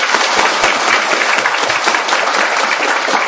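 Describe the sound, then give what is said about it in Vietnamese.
Dense applause from an audience welcoming a Buddhist disciple from Norway at a Vietnamese temple gathering, a steady, even wash of many hands clapping without pause for the whole stretch. “Xin quý vị vỗ tay chào đón.”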